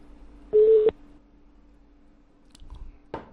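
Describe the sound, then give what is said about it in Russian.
A single short telephone call tone, loud and steady, sounds once during a phone call to a number, then the line drops into near silence broken only by a few faint clicks. “Что-то, ребят, один гудок и идет, скидывает.”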